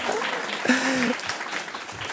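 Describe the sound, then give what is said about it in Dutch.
Applause from an audience at a panel discussion in Amsterdam, a steady wash of clapping lasting the whole moment, with a voice briefly rising over it. “Ja, er mag best op geklapt worden.”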